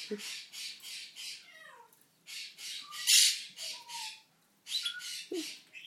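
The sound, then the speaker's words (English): Quaker parrots squawking in repeated harsh, raspy bursts, with a few short whistling calls between them and a sharper screech near the middle, alone with no voices. “Oh, Quakers are having a shout.”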